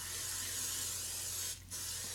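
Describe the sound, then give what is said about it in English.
Butter-flavored cooking spray hisses from an aerosol can as it is sprayed all around a pan, a steady, bright spray with one brief pause before the hiss resumes. “So I've got my cooking spray here. Give it a nice good shaky shake. So I've got my pan, and it's really important that we get it all the way around, okay?”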